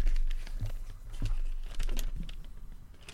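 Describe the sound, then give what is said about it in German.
Soft crinkling and rustling of paper as a folded note pulled from a trouser pocket is opened out, with a few short crackling bursts spread through the moment. “ich habe hier gerade so einen Zettel in meiner Hosentasche gefunden. Ich falte jetzt einfach mal diesen Zettel kurz auf.”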